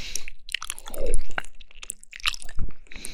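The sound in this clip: Someone chews cold-dressed pig ears in an irregular run of crunchy bites and wet, squishy mastication. The chomps are close and moderately loud, with no talking.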